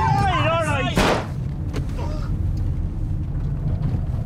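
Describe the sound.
A single sharp gunshot fired accidentally inside a car cracks out loudly just after a voice, leaving a steady low rumble underneath.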